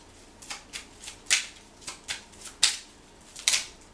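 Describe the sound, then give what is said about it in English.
Tarot cards being shuffled and drawn during a reading: a quick, uneven series of short, crisp flicks and snaps, some sharper than others, fairly soft overall, with no talking. “May I have three more cards for Sagittarius, please?”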